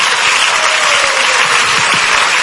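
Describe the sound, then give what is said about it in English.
A church audience claps, loud, dense and steady applause sustained without a break from start to finish. “Oh, can somebody clap for God of Pega?”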